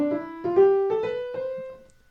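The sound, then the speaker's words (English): A musical scale played in a swing rhythm: a short run of clear, sustained notes climbing steadily in pitch with an uneven long-short lilt, ending on a held top note that fades out. “the same scale in a swing rhythm would sound like this”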